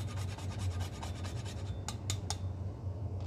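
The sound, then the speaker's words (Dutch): Rasping scrapes of a whole nutmeg ball grated on a kitchen rasp over an egg mixture: steady, faint scratching strokes, with a few sharper scrapes toward the end, over a low hum. “Ik heb gewoon nootmuskaatbolletjes die dus op de rasp rasp.”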